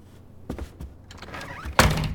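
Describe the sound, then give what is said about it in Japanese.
A door being closed ends in one solid thunk near the finish, after a few softer knocks and some shuffling. “着替えるからドア閉めて。”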